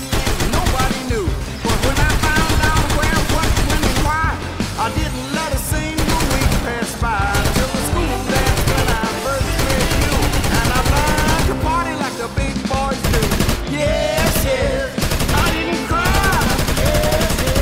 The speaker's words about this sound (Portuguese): Em questão de segundos, elas se enchem de policiais que começam a estraçalhar tudo com sua artilharia pesada.